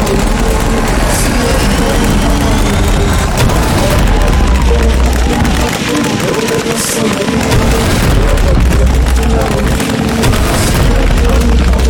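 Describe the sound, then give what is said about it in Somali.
Shoulder-fired rockets explode during combat, heavy booms merging with sharp bursts into a loud, continuous rumble that barely lets up. “mujaahidiinta ayaa si adag ugu dagaalamaya gantaalada garbaha laga tuuro kuwaas oo sida muuqata ku hoobanaya difaacyada ciidamada dawladda federaalka”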